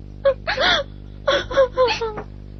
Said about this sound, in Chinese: 好妹妹，别哭，别哭啊！